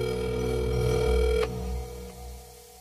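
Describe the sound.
A telephone rings on a call placed to one's own number, a steady buzzing harmonic tone lasting about a second and a half before it cuts off, leaving only a faint hum.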